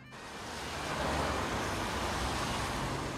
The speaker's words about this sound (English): A car crawls by.